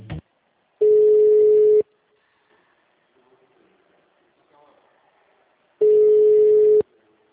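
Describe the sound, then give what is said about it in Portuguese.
Telephone ringback tones sound while an office call is transferred to another extension. Two steady, buzzing beeps, each about a second long, are separated by roughly four seconds of faint, quiet background, with a brief voice at the very start. “Vou transferir para outro ramal, tá bom?”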